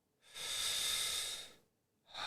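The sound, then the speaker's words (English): A long, deep breath that fills the lungs from the bottom up: a steady, airy rush lasting about a second, then a short pause before another breath begins. “after doing Naam's course, I learned how to be more of at the bottom of the lung and fill it all the way up.”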